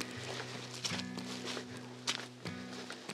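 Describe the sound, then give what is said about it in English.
Faint footsteps walking along a muddy hilltop, a few soft treads at an uneven pace with a couple of slightly sharper steps. “I'm walking along the top now.”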